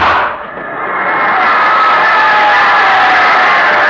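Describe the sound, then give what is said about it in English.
Crowd roar of football fans giving a player an ovation at a game, a dense, loud wash of cheering that dips briefly near the start, then swells and holds steady to the end. “What an ovation he gets from the Flatfoot cheering section.”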